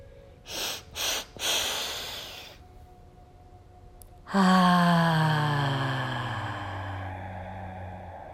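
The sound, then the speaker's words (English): Deep inhaling through the nose in a guided breathing exercise: three short, sharp sniffs, then a longer drawn-in breath. After a quiet pause, a low sustained tone with slowly falling pitch fades out. No one talks. “Inhale, inhale, inhale through the nose. Hold it for as long as you can with minimum effort, keeping yourself expanded.”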